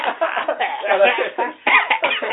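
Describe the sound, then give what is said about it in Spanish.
Coughing into a microphone, a run of harsh, thin bursts that come in a few clusters, fairly loud and sounding band-limited and muffled. “pero en este caso tosen en el micrófono”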